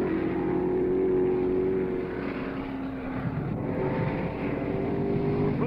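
Can-Am race car crossing the start-finish line: a dense, steady engine roar that dips slightly partway through, with no clear pass-by swell.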